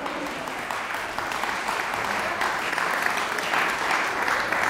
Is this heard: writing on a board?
no